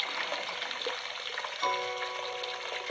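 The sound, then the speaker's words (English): Water gushes from a bathroom sink faucet in a faint, steady rushing hiss that runs throughout with little change. “Water gushes out of the faucet.”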